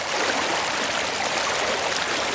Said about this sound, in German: sich der Bach Wadi al-Auscha mit Wucht seinen Weg durch den kargen Boden.